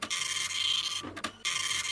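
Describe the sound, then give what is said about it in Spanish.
An old printer runs with a steady, harsh mechanical rasp that cuts out briefly in the middle, gives a couple of short knocks, then resumes at the same level. “Digo yo, ¿no es un poquito antigua la impresora?”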